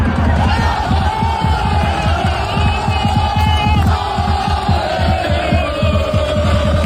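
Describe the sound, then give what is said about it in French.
Roaring crowd of French football supporters gathered in Times Square, New York, before the French team's first match, with loud, continuous shouting and chanting over steady rhythmic low beats. “Et forcément, les Français rassemblés à Times Square, ça fait un peu de bruit.”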